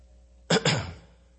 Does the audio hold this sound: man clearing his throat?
yes